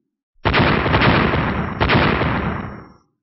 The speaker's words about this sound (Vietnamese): Một tiếng vang thật lớn, không trung bộc phát ra một tiếng oanh minh kịch liệt, một đoàn tia sáng chói mắt từ đó nổ bể ra